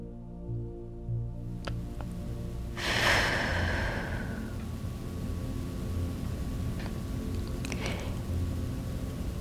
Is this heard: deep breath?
yes